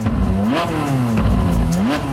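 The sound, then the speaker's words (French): A Ferrari sports car engine revs hard as it accelerates, a loud, continuous mechanical roar whose pitch swells upward twice, with a faint rattle underneath and no voices. “l'ivresse de la vitesse à 200 km/h dans sa Ferrari gris”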